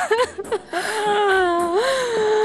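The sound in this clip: A woman crying: a few short broken sobs give way to a long, sustained wailing moan that wavers and lifts in pitch near the end.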